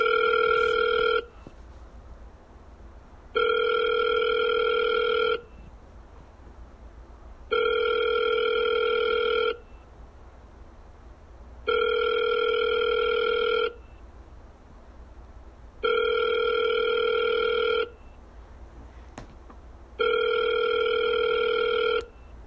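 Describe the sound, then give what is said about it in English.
An outgoing telephone call rings toward voicemail: six evenly spaced electronic ringback tones, the first cut short, each a steady two-second buzz separated by short pauses. They are moderately loud, with no talk over them. “Oh, damn it, it went to voicemail.”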